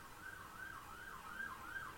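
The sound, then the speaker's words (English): Wailing siren outside at night, its tone sweeping up and down in steady repeated cycles at a constant, moderate loudness with no voices. “The sirens are out tonight.”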